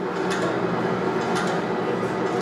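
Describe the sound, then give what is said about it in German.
Bombe codebreaking machine at Bletchley Park running, its many rollers turning: a steady, dense mechanical whir with occasional faint ticks on top. “Eine gewaltige elektrische Maschine türmt sich in einer weiteren Baracke deckenhoch auf. Sie besteht aus zig Walzen, die sich jetzt drehen, und elektronischen Verbindungen. Dieses Gerät hieß die Bombe und wurde in Bletchley Park”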